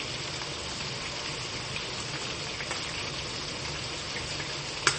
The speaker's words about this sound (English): I got the hole up. At least now I can take the liquid out of the beans.